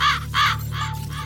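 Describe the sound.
A raven caws four times in quick succession, each call harsh and rasping, over a steady low hum.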